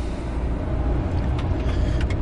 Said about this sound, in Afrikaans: O, nou ry meneer glo net op in die kloof tot by die plaashuis.